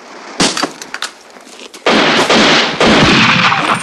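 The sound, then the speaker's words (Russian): Pistol shots fired by a man as he drops to the ground during a desert shootout: several sharp, loud cracks in quick succession, followed by a longer stretch of dense, loud noise. “Тут же вырывает пистолет, в падении стреляет, убивая двоих.”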